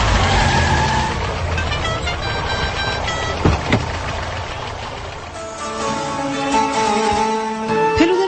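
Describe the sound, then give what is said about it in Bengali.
A second-hand Mark II Ambassador car rumbles as it arrives. In the latter part, tonal notes from its sa-re-ga-ma musical horn sound over the engine. “উৎকট Saregama horn বাজিয়ে একটা second hand mark two ambassador গাড়ি ফেলুদাদের বাড়ির সামনে এসে দাঁড়াল।”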